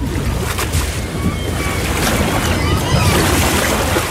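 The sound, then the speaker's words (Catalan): A boat rocks on sea waves, heard as a loud, continuous wash of surf and churning water with gusty wind noise running throughout. “Havíem d'anar en barca, m'he marejat.”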